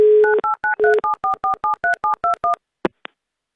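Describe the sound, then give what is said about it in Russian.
Telephone dialing: a rapid, evenly spaced run of many loud touch-tone keypad beeps, followed by a short pause and two brief blips. “Звоним Алексею.”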